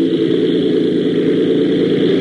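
An airplane engine opened to full throttle for takeoff, giving a loud, steady drone with a low rumble that holds without a break.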